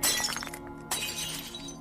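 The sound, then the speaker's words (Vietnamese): A crashing and breaking sound effect: glass shatters in a loud bright burst, followed partway through by a second sharp smash, with scattered tinkling fragments trailing off afterward. “Đám các bà cụ đang nghi ngờ thì bỗng nhiên xoảng một cái, tiếng đổ vỡ.”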